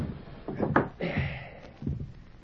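A desk drawer being pulled open: a few short wooden knocks and rattles followed by a sliding scrape of moderate loudness.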